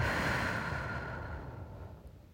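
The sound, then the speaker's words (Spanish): A deep breath is exhaled slowly, a soft, breathy hiss that fades gradually to near silence over about two seconds. “Respira profundamente. Sostén. Exhala.”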